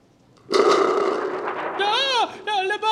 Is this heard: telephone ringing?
no